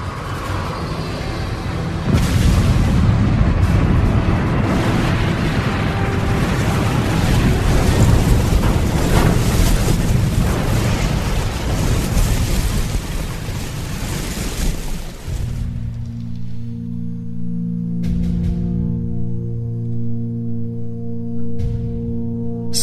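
An aircraft crash-landing after engine failure: a loud, dense, sustained rumbling roar runs for about thirteen seconds, then cuts off abruptly and gives way to quieter, low sustained tones.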